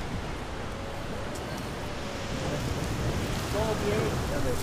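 Water splashes and hisses as a market stall table is washed down, a continuous broad, rain-like rush that grows slightly louder toward the end.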